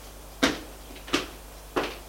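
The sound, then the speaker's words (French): A door to a room that is always kept closed is opened: three sharp, moderately loud clunks at roughly even intervals, with no talk. “Il ouvre la porte.”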